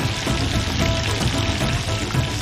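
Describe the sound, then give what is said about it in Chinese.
Sizzling hot oil as duck pieces are stir-fried with scallion, ginger and fresh chili: a loud, steady crackle and hiss that continues without a break, with no talking. “下入葱、姜、鲜海椒爆香，加入鸭块翻炒均匀”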